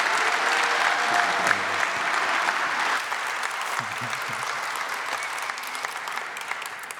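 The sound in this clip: Audience applause welcoming a pastor at a church service: dense, sustained clapping from a large crowd that stays steady and fairly loud throughout.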